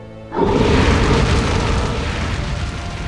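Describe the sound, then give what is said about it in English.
A blast of dragonfire erupts as a sudden loud burst of broad, roaring noise. It sustains as a heavy rumbling whoosh for nearly three seconds and eases only slightly toward the end. “Drogon rears back and unleashes a blast of dragonfire that engulfs Daenerys and Jon both.”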